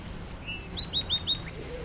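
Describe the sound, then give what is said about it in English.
A bird sings a victory song after landing on top of another bird: four quick, high chirps in a tight burst, faint over a low, steady background hum. “So he landed on top of the other bird. Yeah. Victory. That's his victory song. Yeah, he'll do it again.”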